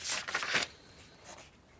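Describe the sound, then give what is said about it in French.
A pen scratches across a sheet of paper as someone writes a name, giving a few faint, quick strokes that are loudest early on. “Tu peux m'écrire ton nom sur la feuille?”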